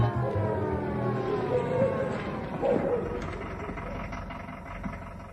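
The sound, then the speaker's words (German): A police siren on a black-green Mercedes 220 police car wails in sweeping tones over a rumbling engine. The sound is moderately faint and continuous throughout, with no voices. “Ihre Sirene war ja schon von weitem zu hören.”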